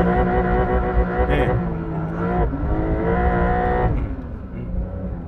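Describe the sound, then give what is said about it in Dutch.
Car engine bouncing off its rev limiter under automatic shifting, a loud steady high-revving drone broken by a few brief cuts in power. “Want ik was niet handmatig aan het schakelen, maar ik bleef even zeg maar, in die toerenbegrenzer even hakken.”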